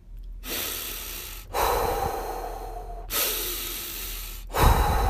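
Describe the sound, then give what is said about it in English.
Deep, slow breaths drawn in and let out, a few long, loud breathy rushes of air with brief pauses between them and no talk. “If you're getting ready to eat something that you don't want to eat, take a few deep breaths.”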